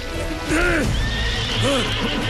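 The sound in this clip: A horse pulling a cart whinnies over rocks and flowing water. A few loud, arching neighs sit over steady, heavy noise, with hoof clatter mixed in.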